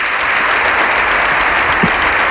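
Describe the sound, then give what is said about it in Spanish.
A standing audience in the Spanish Congress applauds a speaker: loud, dense, unbroken clapping that holds steady from start to finish with no voices above it. “100% de gente en pie aplaudiendo a un orador.”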